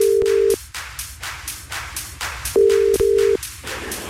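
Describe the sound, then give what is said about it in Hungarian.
Telephone ringback tones as a radio-contest winner is called: one longer steady mid-pitched tone burst, a pause, then two shorter bursts close together. “Nemrég játékot indítottunk, a játék felhívás után pedig nagyon sokan jelentkeztek, de hogy ki volt mindenkinél gyorsabb, őt hívom.”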